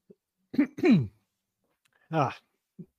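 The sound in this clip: Throat clearing from a speaker during a Chicago Bears football talk discussion: a few short, raspy voiced bursts separated by a pause, with tiny faint clicks at the start and end.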